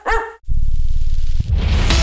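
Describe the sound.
A dog gives one short, sharp bark at the start, heard in a pet-food store advert. A dense, loud, low rumbling sound follows it right away and continues to the end.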